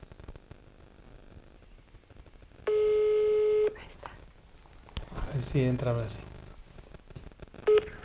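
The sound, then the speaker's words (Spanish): Telephone busy signal after a dropped call: a steady, buzzy tone lasts about a second, then a voice speaks and a brief second tone follows near the end. “Es que te, se cortó la llamada, pero no te vayas.”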